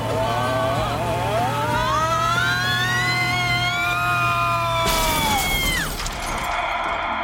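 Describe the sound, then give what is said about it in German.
A car speeding toward an unfinished road curve, its high engine whine climbing and holding loud and steady, then cut off by a sudden loud crash with shattering. “Sie fahren direkt auf die unfertige Kurve, Chef.”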